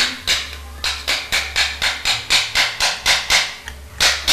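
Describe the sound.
Steady tapping on a toy nail: many sharp, evenly spaced knocks in a quick, regular rhythm, with a short gap before the last couple of hits.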